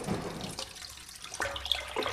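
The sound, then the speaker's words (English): Washing-machine wastewater poured from a jug through a filter makes a faint, uneven trickling and splashing that thins out and then returns briefly. “I'm scooping it up in a jug and pouring it through”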